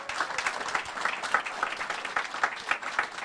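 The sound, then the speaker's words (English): Applause from an audience welcoming a visiting team from the Global Celebration School of Ministry: dense, sustained clapping with many overlapping hands at an even level throughout. “We'd like to welcome all of you. So a little hand for them.”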